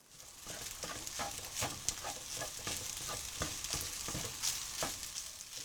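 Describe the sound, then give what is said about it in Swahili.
Food frying in a pan, with raisins and the remaining ingredients cooked together, gives a steady sizzling hiss dotted with many small crackles and the scrape of stirring. It holds at a constant level throughout, with no voices. “Kaanga kila kitu pamoja kwa muda mrefu kidogo na uongeze viambato vingine vilivyosalia.”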